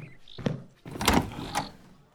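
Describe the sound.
A door being opened for a visitor: a few dull thumps and scraping, rattling sounds at moderate volume, with a brief sharp knock-like hit near the start.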